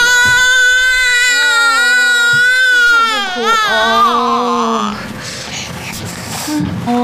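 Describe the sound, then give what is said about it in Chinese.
An infant cries in long, loud, wavering wails that rise and break, then turn into quieter, rougher sobbing toward the end. “怎么回事啊？怎么老哭啊？ 没吃饱呗，当然哭了。”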